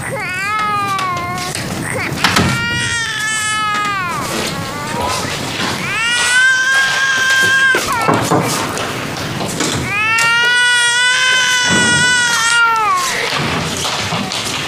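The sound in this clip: A baby crying after waking up, with loud, repeated high wails that waver and bend in pitch and are broken by short pauses.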